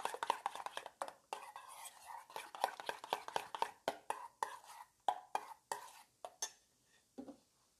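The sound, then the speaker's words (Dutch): Salad dressing stirred smooth in a bowl with a utensil, giving a quick train of sharp clicks and taps that runs steadily, then thins out into slower, more spaced knocks toward the end. “Dit roer ik door elkaar. Even lekker glad mengen.”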